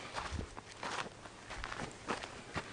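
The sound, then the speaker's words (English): Footsteps walking outdoors on an outing near a mine, a steady series of crunching steps in even rhythm, moderately loud and alone without talk. “We'll walk up this other way a little bit.”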